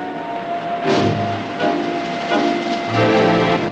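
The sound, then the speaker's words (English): A train moving off gives a low mechanical rumble and hum, broken by a few louder surges of clanking and hissing that rise and fade at irregular intervals. “The train moves off.”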